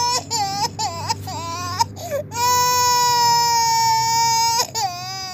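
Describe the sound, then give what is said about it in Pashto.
Young children of about two and three, sick with an illness in Kandahar, cry in high-pitched wails. A few short, wavering sobs come first, then one long sustained wail and a final rising cry, loud and alone. “دا ژړا بیا د هلمند په گاونډ کې د کندهار د اوسېدونکي محمد الله د تنکیو ماشومانو ده چې په همدې ناروغۍ اخته سوي دي”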